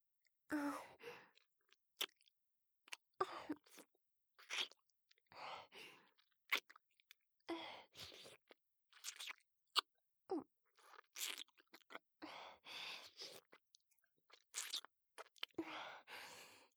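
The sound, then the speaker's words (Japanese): Wet licking and mouth sounds on someone's neck, a long run of soft smacks, slurps and brief sucking noises in an irregular rhythm, with quiet gaps between them and no talk. “舐めてもいいですか？ダメって言われても舐めちゃいますけど。”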